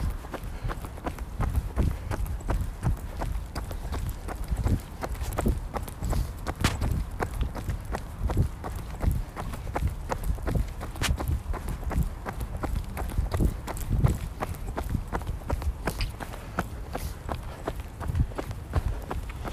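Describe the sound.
Running footsteps from a runner out on a daily run, with many rhythmic footfalls thudding at a steady pace throughout.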